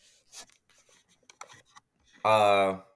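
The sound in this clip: Someone types a comment on a keyboard, making scattered light clicks and taps. A person then starts speaking.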